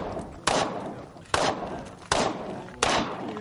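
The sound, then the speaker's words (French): Four sharp gunshots from Malian soldiers' live-fire drill on a military camp firing range in Ouagadougou, each a loud crack with a short decaying tail, spaced fairly evenly. “Nous sommes sur le champ de tir d'un camp militaire de Ouagadougou. Des soldats maliens s'adonnent à des exercices de tir réels”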